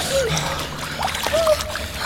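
Splashing water from people swimming in ice-cold water, a continuous, fairly loud churn of splashes and sloshes that runs through the whole short clip.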